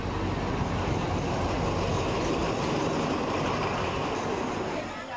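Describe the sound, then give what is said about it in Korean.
A train pulling into a station in Thailand, heard as a steady, loud, broad rumble of rail noise throughout, with no clear breaks. “아, 이제 기차가 도착하고 있습니다.”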